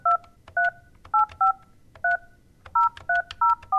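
Touch-tone telephone dialing: nine crisp dual-pitched keypad beeps in an uneven rhythm, with a longer pause midway, over a faint low background hum.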